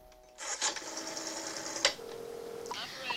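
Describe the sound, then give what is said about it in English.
A telephone picked up and dialed: a handling clatter and a sharp click as the handset is lifted, then a short steady tone. “Deep in thought, she picks up the phone.”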